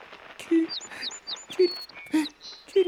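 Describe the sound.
A small bird chirps in a quick series of faint, high, short tweets, spaced irregularly with a few soft low blips in between.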